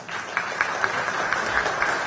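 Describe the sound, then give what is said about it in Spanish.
Applause for the president of the Republic at a radio event, celebrating a call to cut beer prices: dense, steady clapping from a group, holding at an even moderate level for the whole stretch with small scattered peaks. “Un aplauso para el presidente acá en la radio por el tema de la reducción de la cerveza. Están festejando los muchachos.”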